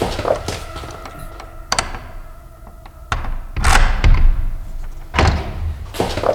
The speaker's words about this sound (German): Öffnet die Tür und kommt mit erhobenen Händen heraus.